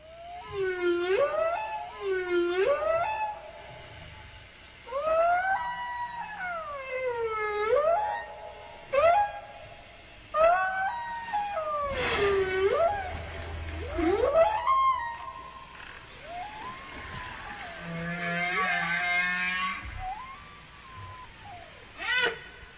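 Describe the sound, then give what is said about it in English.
Whale song: a long, unbroken run of sweeping tonal moans and whoops, each gliding up and down in pitch with rich harmonics. The calls repeat in uneven phrases, some brief and some drawn out, with no talk over them. “And so the whale songs could sound like this right here.”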